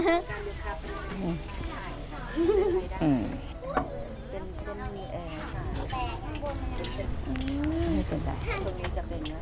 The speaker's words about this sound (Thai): อ๋อแต่อันนี้คือเอามาทอดให้มันสุก ค่ะทอดให้มันสุก